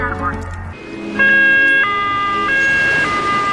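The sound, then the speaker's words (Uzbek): An ambulance siren wails loudly, beginning abruptly after about a second of other sound, then alternating between a high and a low tone in steady two-tone steps. “Aziz haydovchilar, ushbu sirenani eshitganingizda tez yordam mashinasiga darhol yo'l bering.”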